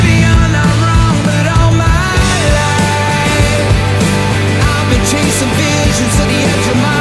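A pop song from a newly released album plays loud and continuous, with a thumping beat under dense, sustained harmonic layers of instruments.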